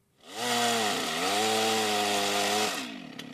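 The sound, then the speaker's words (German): Chainsaws cutting trees during illegal logging in a forest in northern Namibia: one loud, steady, buzzing engine whine held for about two and a half seconds, its pitch dipping slightly and then recovering before it cuts off. “Das Geräusch von Motorsägen bedeutet nichts Gutes im Norden Namibias.”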